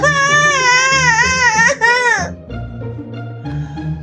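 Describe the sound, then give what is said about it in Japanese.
A grandchild cries hard, a loud, wavering, high wail that lasts about two seconds and then drops into lower, sobbing voice sounds. “しかし孫は一層激しく泣き、静まる様子もありません。”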